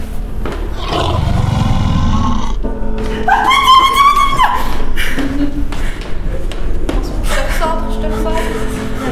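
Monsters in a video game roar and growl loudly. Several deep, rasping roars are heard, and a higher, tonal howl rises out of them near the middle.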